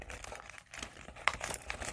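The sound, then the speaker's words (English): Paper crinkles and rustles as a junk-mail envelope, glued and lined with washi tape, is folded and squished. The soft, continuous crumpling includes one sharper crackle near the middle, and no voices are heard. “And we're folding and we're squishing.”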